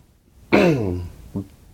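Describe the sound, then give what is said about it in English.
A person clears their throat with a gurgling, regurgitating sound: a long, rough voiced rasp that sinks in pitch, then a short second grunt after a brief pause. “No one will ever know that I just regurgitated in my throat.”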